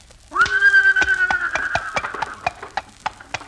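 A horse pulling a buggy gives a loud, long, high whinny over a steady, fairly quick clip-clop of hooves that keeps going after the neigh fades.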